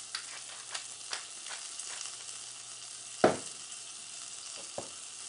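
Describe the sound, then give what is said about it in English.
Shallots coated in olive oil, salt and pepper sizzle faintly on a grill, a steady soft hiss broken by a few small crackles and one louder pop. “But what I'm going to do is take a little bit of olive oil here, salt and pepper, and put them right on the grill.”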